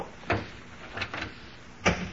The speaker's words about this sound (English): Now, careful, Maxie, when you close the door.